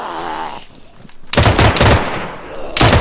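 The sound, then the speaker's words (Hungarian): Automatic weapon gunfire in a zombie video game: two loud, dense bursts of rapid shots, the first longer and the second starting right after a brief dip in level. “Ó, basszus! Ó, basszus! Automata fegyvert volt rá. Fegyver volt nála. Most kíváncsi vagyok, hogy leáll-e a zombikat.”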